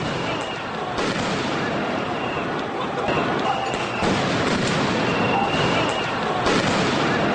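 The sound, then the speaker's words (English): Oakland police firing tear gas into a crowd of protesters at night in California. Several dull bangs break through a dense, continuous wash of crowd noise and voices. “Last night in Oakland, after repeated warnings to disperse, California Oakland police fired tear gas at least 5 times into a crowd of protesters.”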